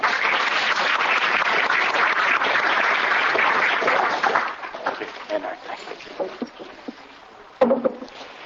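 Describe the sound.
Audience applause welcoming a speaker at an event in Lethbridge: dense, steady clapping for about four seconds that then thins out and fades as a voice begins speaking.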